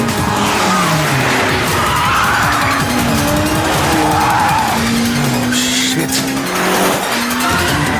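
Car engine revving hard as it accelerates, loud and continuous, with squealing, skidding tyres layered over the drone.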